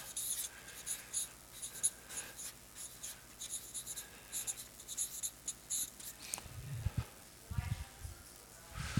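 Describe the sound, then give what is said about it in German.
A pen writes on paper in quiet, scratchy strokes and short bursts with irregular pauses between them. People talk softly alongside the writing. “Ja, schreiben wir auch.”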